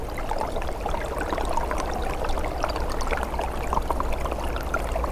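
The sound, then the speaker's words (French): A thin trickle of water runs beneath the ice of a small stream in a cold snap with snow, making a soft, continuous bubbling and gurgling that stays faint and even throughout. “Un filet d'eau se fraye un passage sous la glace.”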